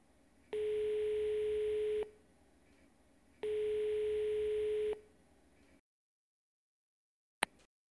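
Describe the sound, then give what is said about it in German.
An answering machine's tone before a message: two steady, equal-length mid-pitched beeps, each about one and a half seconds, separated by a short gap, then silence broken by one brief click. “Sie können uns aber eine Nachricht hinterlassen. Wir rufen Sie zurück. Bitte sprechen Sie nach dem Ton.”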